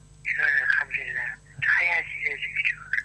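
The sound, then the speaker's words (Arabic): An incoming telephone call carries a caller's voice over the line, thin and band-limited, heard in two stretches of speech with a short gap between them. “نأخذ اتصال هاتفي ونقول ألو صباح الخير.”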